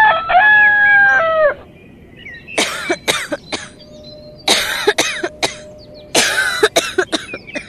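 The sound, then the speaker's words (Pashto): A mother with a high fever coughs badly: many harsh, rasping coughs in three separate fits after a drawn-out tonal cry at the start, loud and alone with no talk. “ولی مورې ته خو داسې بده ټوخېږې”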